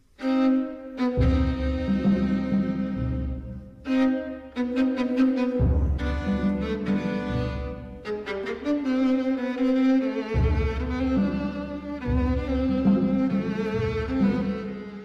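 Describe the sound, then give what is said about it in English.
Opening of the tango from Stravinsky's The Soldier's Tale: a small ensemble led by violin in a clipped two-beat rhythm, punctuated by sharp percussive accents and pauses. “Now, listen to how the tango begins so you will recognize it the next time you hear The Soldier's Tale.”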